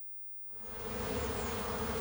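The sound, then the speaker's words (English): Honeybees buzzing around their hives in a community garden among historic downtown buildings on a sunny March day in Omaha, Nebraska. After a brief silence the dense, steady drone swells in, then holds loud and even throughout. “In a community garden surrounded by historic downtown buildings, beekeeper Mark Welsh is taking advantage of the nice weather and checking on his honeybee hives.”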